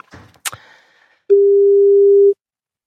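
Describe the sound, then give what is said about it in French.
A telephone call is placed: a few brief clicks and rustles of handling are followed by a single steady, pure electronic tone lasting about a second, loud and alone. “Je te laisse faire le numéro”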